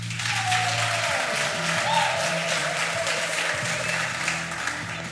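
Audience applause greeting a guest called to the stage, a continuous, even wash of many hands clapping that holds steady for the whole stretch without clear breaks.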